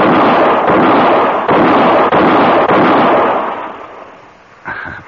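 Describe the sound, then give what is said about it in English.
Rapid gunfire from drawn handguns in a quick-draw shooting contest: a loud, sustained roar of overlapping shots with a few brief breaks, fading toward the end before one last short burst. “that's mighty fine shooting”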